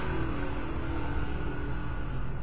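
Street traffic of motorbikes and cars makes a steady, dense roar, a continuous low rumble of engines with no single vehicle standing out or passing clearly.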